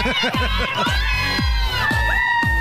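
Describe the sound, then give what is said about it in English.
Women shouting the loud, shrill 'woo' heard in Girls Gone Wild footage: many overlapping high-pitched whoops and cheers that rise and fall in quick succession, loud and continuous. “Yes, don't forget that famous woo. The loud, obnoxious sound women make to try to prove to others they're having a good time.”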